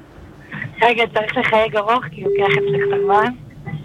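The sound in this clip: A telephone call is placed to a relative, with a single steady electronic line tone lasting about a second amid people talking.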